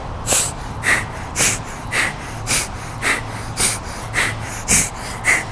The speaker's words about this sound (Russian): Можно чуть-чуть скруглить поясницу, и тогда у вас вот удар капалабхати, он будет идти туда вниз.